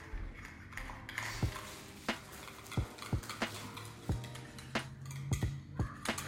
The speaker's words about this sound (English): Just whisk. I know what whisking is.